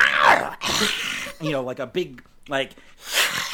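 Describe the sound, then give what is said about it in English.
A human voice imitating the angry growl of the Pokémon Glameow, a cat, in a few rough, throaty vocal bursts separated by short pauses. “This one's gonna growl. So the Glammeow gets a mean look on its face and just does a big old,”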